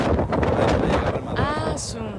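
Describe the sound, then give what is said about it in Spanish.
Gusty wind buffeting the microphone while a plane passes overhead: a rough, steady, low rumbling roar that holds for about two seconds at moderate loudness. “Todavía no llega. Espérate que pase el viento, güey.”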